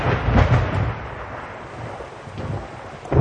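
Thunder rolls through heavy rain on a dark monsoon night. Low rumbling booms swell at the start and again near the end over a steady wash of rain noise.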